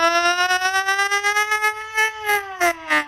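An ambulance siren sounds as a loud, continuous harmonic wail whose pitch creeps slowly upward, holding steady across the whole stretch with no voices over it.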